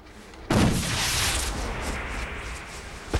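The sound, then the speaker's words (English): A flare gun is fired into the air over a drop: an abrupt sharp bang, then a long rushing hiss that slowly fades, with a short faint pop near the end. “aims a flare gun into the air over the drop and fires.”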